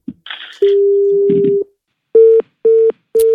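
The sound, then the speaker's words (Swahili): Telephone tones from a call that goes unanswered: a brief noisy burst, then one long steady tone, followed by three short beeps at the same pitch, loud and with no voices. “Hashiki simu, hata shika simu tena.”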